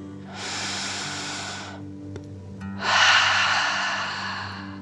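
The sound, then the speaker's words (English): Slow, deep breathing in and out, with two long, airy breaths separated by a short pause. The second breath is louder and more forceful than the first. “Relax down into the sand and breathe like a dragon in and out.”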